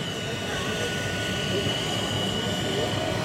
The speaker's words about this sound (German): Ui, da fährt ein Kran vorbei. Oh ja, einer von den ganz großen Lastkränen bewegt sich hier. Von der, von der Werft.